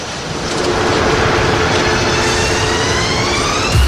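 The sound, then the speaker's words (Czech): A train departs a station after its doors close, a loud, steady rolling rumble with a tonal whine that climbs in pitch as it gathers speed, and no voices. “ukončete výstup a nástup, dveře se zavírají. Příští stanice Rádio Hej.”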